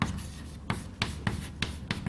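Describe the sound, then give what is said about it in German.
Handwriting with a pen, heard as short scratchy strokes in an irregular series of quick bursts separated by brief pauses, fairly faint, with no talk. “Moment, schreibe ich es gleich hin.”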